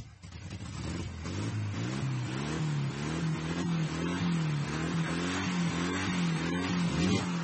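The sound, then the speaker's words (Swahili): A car engine running after being started, a steady mid-pitched droning hum whose pitch wavers up and down as it revs, holding an even loudness throughout with no voices. “Aya basi, gari inawashwa hiyo.”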